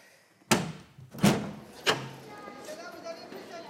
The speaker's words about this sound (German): Ich werde das Fenster öffnen.